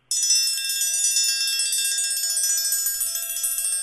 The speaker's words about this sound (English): if you continue that rhythm, you end up with a triangle roll. So try that, just try to get a sustained sound.